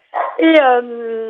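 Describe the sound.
A dog lets out a short, rough yelp that turns straight into a drawn-out, high, whining cry, loud and with no other sounds around it.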